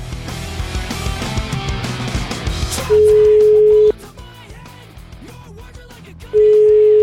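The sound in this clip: A telephone line tone sounds as a call is placed: two long, steady, mid-pitched beeps separated by a pause. Before them comes a louder, busy background stretch.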